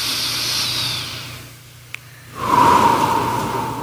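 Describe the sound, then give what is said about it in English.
A slow deep breath drawn into the stomach during a guided meditation at an Easter Sunday service: a long airy hiss, a brief lull marked by a tiny click, then a louder, rougher rush of breath. “Take a deep breath into your stomach.”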